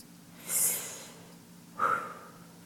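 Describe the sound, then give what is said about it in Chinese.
Two slow, airy deep breaths are taken during a group breathing exercise. Each is a soft hiss that swells and fades. “我们现在大家深呼吸。”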